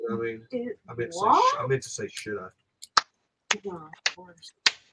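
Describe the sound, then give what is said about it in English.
Finger snapping follows talk: a man speaks first, then a few sharp, crisp snaps ring out one at a time, with brief speech between them. “I don't clap like that. Look at you. Gotta find that sweet spot, baby. Finger snaps.”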